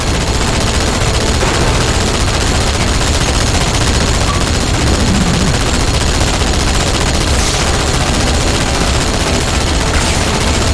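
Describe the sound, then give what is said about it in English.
Rapid automatic gunfire from turrets in the Halo video game, a dense, continuous stream of shots and bursts that stays loud for the whole stretch with no voices. “Can I actually, like, shoot any of their turrets? Yeah, you can shoot all of their turrets.”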